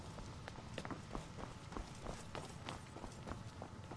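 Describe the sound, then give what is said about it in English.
Rapid footsteps of a video game character running on the spot, many quick, even steps in a steady rhythm that continue for the whole stretch, with no talking. “Yep, stop running on the spot. It's disturbing.”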